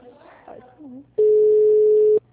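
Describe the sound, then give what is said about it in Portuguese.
A telephone ringing tone sounds while someone places a call: after brief talk and faint background sounds, one long, steady, even-pitched tone holds for about a second and then cuts off. “Tá chamando, pelo menos.”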